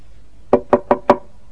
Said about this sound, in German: Kaum war die alte Geiß aus dem Haus, klopfte es an die Tür.